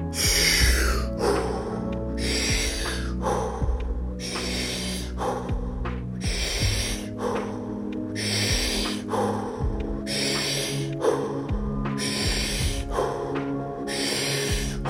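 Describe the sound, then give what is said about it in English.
Forceful breathwork breathing through the mouth: many loud, rhythmic rushes of air repeating roughly every second, each sharp and breathy, over a low steady hum. “Drive that air in. Let's get serious for the first part. In 3. Eyes are closed. 2. All through the mouth. 1. Let's go. First 10 breaths.”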